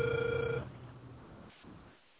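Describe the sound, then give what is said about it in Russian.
A telephone ringback tone sounds while a call is being dialled: one short, faint, buzzy ring lasts about half a second, then only quiet line hiss remains. “Алло, продолжаю дозвон, не отключайтесь.”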